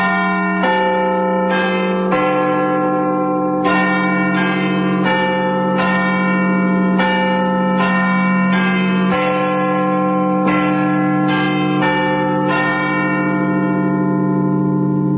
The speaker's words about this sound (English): some very bright spark has decided to put the chimes of Big Ben out on a CD. It's an actual record.